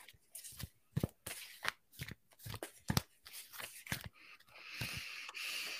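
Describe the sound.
Tarot cards are shuffled by hand in many quick, crisp riffling snaps at an uneven rhythm. The sound is fairly quiet, and toward the end it turns into a softer, continuous rubbing of cards.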